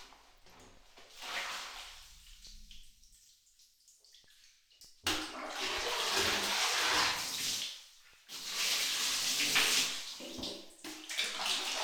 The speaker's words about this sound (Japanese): あわあわ流しちゃうね。